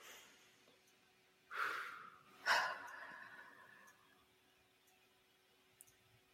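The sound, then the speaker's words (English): A person takes a deep breath: two faint, breathy rushes of air with no other sound, the second stronger and trailing off slowly. “Okay, I'm taking a breath now.”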